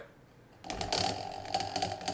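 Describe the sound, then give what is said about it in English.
A prize wheel is spun and its ratchet clatters in a fast, steady run of many clicks after a brief quiet start, with no talk over it. “spin the wheel.”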